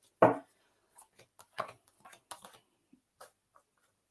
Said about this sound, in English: I'm going to pull some cards for you as well